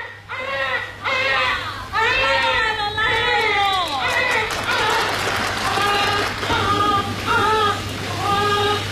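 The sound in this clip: A child crying in a staged comic sketch: repeated wavering, rising and falling wails and sobs, fairly loud, over a steady low hum.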